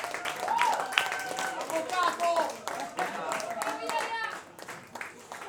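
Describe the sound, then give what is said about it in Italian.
Audience applause at a live band concert: a steady patter of many hands clapping throughout, with voices talking and calling out over it. “E vorrei quindi prima fare un applauso gigante a Yahya Cislaghi, autore dei testi, cantante.”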